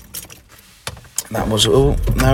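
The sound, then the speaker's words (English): Car keys jangling as a car is switched off in a countryside lay-by: a few sharp metallic clicks and rattles, after which a person starts talking. “Sorry, just switch my car off. Because I'm parked in a lay-by in the countryside”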